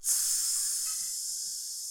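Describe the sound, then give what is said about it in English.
Snakes hissing in a nearby room: one continuous, breathy, high hiss that swells up at once and holds for about two seconds, slowly thinning out. “Snakes! One cell is just full of snakes! Full of snakes!”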